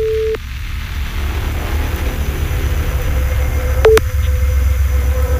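Telephone ringback tone on an outgoing call: a steady mid-pitched tone sounds briefly at the start, falls silent, then returns near the end over a loud, continuous low rumbling background.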